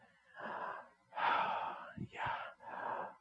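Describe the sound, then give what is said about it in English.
A person breathes audibly in a few airy, hissing breaths, each rising and fading smoothly with short gaps between them. The breaths are fairly soft overall and are heard on their own, without speech. “If you breathe quietly, breathe out loud,”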